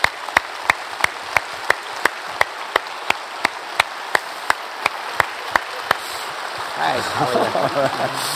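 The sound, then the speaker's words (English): Rhythmic clapping from an audience giving a standing ovation, a long steady run of sharp, evenly spaced claps over a noisy crowd bed, which then gives way to a louder murmur with talking. “You're getting a standing ovation. You haven't even said anything.”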